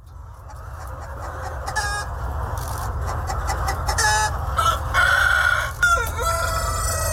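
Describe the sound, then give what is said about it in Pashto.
Roosters of the Vietnamese dragon chicken breed crow and cluck, with several bursts of crowing and chattering calls that grow busier toward the end, all over a steady low rumble. “د ویتنام د چرګانو د ځنګړی نسل ته ډراګن چرګان هم ویل کیږي”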